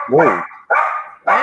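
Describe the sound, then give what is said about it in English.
Three loud, sharp dog barks, evenly spaced, each a short bright yelp that falls off quickly. “Hey! Damn, that scared the shit out of me. Thought that was my dog.”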